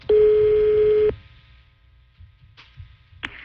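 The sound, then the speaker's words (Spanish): Telephone being dialed: a loud, steady line tone lasting about a second cuts off, followed by near quiet and then two brief higher tones, with no voices. “Estoy marcando. Estoy marcando.”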